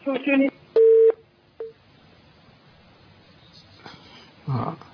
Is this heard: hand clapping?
no